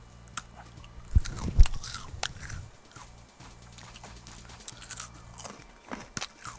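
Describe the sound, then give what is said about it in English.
Crunchy biting and chewing of a stale, triangular blueberry-flavored cracker: a couple of loud crisp crunches early on, followed by softer, irregular chewing sounds. “let me try one of the triangular crackers. That looks pretty good, actually. All right, I'm just going to eat one of them here”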